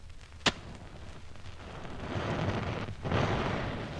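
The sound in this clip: Gunpowder spread on a tray ignites after being lit with matches: a sharp click, then a rising, roaring hiss of burning powder that swells again near the end.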